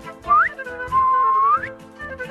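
A man whistles: a short whistle sweeping upward, then a longer held whistle that bends sharply upward at its end, with faint fainter tones trailing after.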